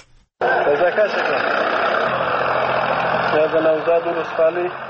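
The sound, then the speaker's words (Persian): Engines of tractors destroying poppy fields in Helmand, Afghanistan, a steady, continuous rumbling drone with indistinct voices over it. “این صدای تراکتورهای تخریب مزارع خشخاش است که مقامهای محلی طالبان با رسانه‌ها شریک ساختند”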